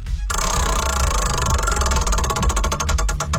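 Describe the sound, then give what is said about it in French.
A prize wheel spins with a rapid, dense run of ratcheting ticks that grow distinct and more widely spaced toward the end as it slows. “Alors, on va tourner la roue pour toi. J'espère que ça va te mettre de bonne humeur autant que ton ado, toi aussi. C'est parti!”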